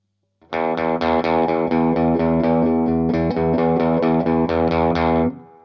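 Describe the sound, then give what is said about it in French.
Electric guitar played on its bridge (treble) pickup gives a bright, distorted tone, with a steady run of many sharply picked notes sustained loudly for about five seconds before cutting off. “Le micro aigu, comme vous allez pouvoir l'entendre, est plus brillant, avec une attaque plus franche et plus marquée.”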